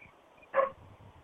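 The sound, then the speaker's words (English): A dog barks once in a backyard with coyotes nearby: a single short, sharp bark rises out of faint background noise and drops away quickly. “We're going to have a bark fest now.”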